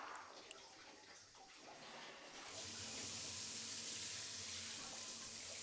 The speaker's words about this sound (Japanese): そろそろ頭一回流すね。 では耳も洗い流しちゃいましょうか。